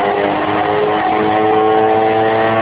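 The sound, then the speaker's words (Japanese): A 40-horsepower engine on a flying platform roars loudly and steadily as it lifts off, giving a dense, unbroken mechanical drone throughout with no talk. “さあこちら40馬力だ。飛び上がってくれ。”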